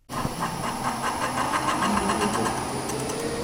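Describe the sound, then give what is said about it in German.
A yarn winding machine runs in a workshop of the German Institute for Textile Research in Denkendorf near Stuttgart, drawing yarn from large floor rolls over wheels onto a smaller spool core. It gives a steady whirring hum with rapid, regular ticking pulses and a thin high whine. “In einer Werkstatt des Deutschen Instituts für Textilforschung in Denkendorf bei Stuttgart läuft eine Spulmaschine. Von großen Rollen auf dem Boden wird Garn abgewickelt, über verschiedene Räder gezogen und zum Schluss auf einem kleineren Spulkern”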